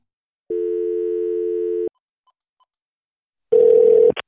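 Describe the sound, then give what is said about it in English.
A telephone being dialed for an emergency 911 call: a steady dial tone, a couple of faint keypad beeps, then a short, buzzy ringing tone that ends abruptly. “Now I'm going to dial 911 and we're going to get this figured out.”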